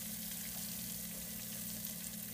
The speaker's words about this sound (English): The nachos right now are popping. Listen to that.